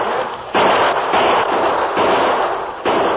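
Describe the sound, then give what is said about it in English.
Gunfire in a shootout with outlaws firing from a building's back windows. It comes as a dense, loud, continuous crackle of noise with a few sudden surges in intensity rather than clearly separate shots. “They're shooting from the back windows.”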